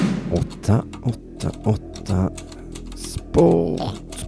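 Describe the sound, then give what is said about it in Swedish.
Trembling fingers type on a polished keyboard as a radio ad sound effect, a run of sharp, uneven key clicks under a speaking voice. “Med darrande fingrar slog Simonius Cypernicus in den avgörande formeln 888sport.se på det välputsade tangentbordet.”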